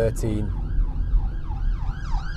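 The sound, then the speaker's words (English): An ambulance siren passes by, wailing in repeated rising and falling sweeps over a heavy low rumble of traffic, with a brief voice at the very start. “Just wait for the ambulance to go by.”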